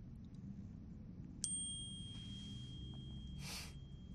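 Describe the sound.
A phone's text message notification chime sounds once as a single bright ding whose tone rings on softly, faint over a low background hum, followed shortly by a brief breathy noise.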